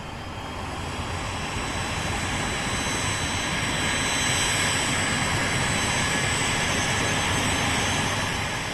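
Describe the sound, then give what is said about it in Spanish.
A jet airplane's engines roar loudly and steadily as it takes off, a dense unbroken rush that swells slightly over several seconds. “Bueno, y nos despedimos de esta hermosa tierra porque ya vamos a despegar.”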